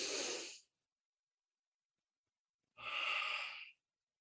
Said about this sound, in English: let's all just take a deep breath through the nose.